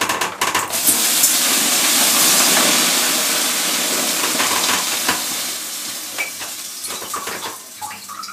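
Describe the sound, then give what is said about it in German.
Water poured onto hot sauna stones: a loud, broad steam hiss surges within the first second, holds for several seconds, then slowly fades, with faint crackles and ticks near the end. “So, ich mache jetzt einen Aufguss.”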